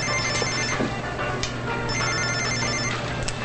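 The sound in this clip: A cell phone ringtone sounds in two bursts of rapid, high electronic beeping with a short gap between them, over a steady low hum.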